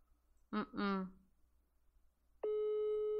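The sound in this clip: A steady electronic telephone tone sounds on a call that rings unanswered. It starts partway through after a brief voice and holds at a constant pitch to the end.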